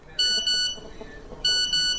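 A phone's text-message notification tone plays twice, each time as a pair of bright, high electronic beeps, loud and clear with no talk.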